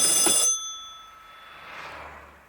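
A telephone bell gives a single bright, metallic ring of about half a second, and its tone then fades away into near silence.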